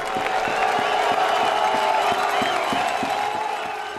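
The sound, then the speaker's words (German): Around 3000 people crowd a Stuttgart market square for an open-air citizens' assembly in drizzle, a dense, steady murmur of many voices with scattered louder calls throughout. “Anfang Juni drängeln sich etwa 3000 Menschen auf dem Stuttgarter Marktplatz.”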